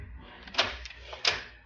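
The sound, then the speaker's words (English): A door is locked in a room holding an open safe, giving two short, fairly faint clicks over a low rumble. “I'll just lock the door while the safe is open.”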